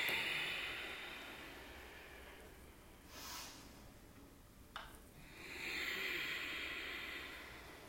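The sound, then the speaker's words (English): Slow, deep breathing in and out through the nose during a 60-minute all-levels slow-flow yoga practice: soft, airy hisses swell and fade, quiet and unhurried, with no talking. “Take a deep breath in through your nose and out through your nose.”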